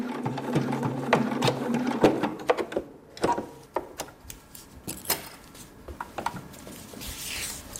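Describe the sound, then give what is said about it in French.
A sewing machine in a hair salon stitches a hair prosthesis made of real hair for a chemotherapy patient. It runs in bursts of rapid mechanical clicking and clatter, broken by short pauses. “J'en ai profité pour coller tous les cheveux ensemble et maintenant je viens de le coudre”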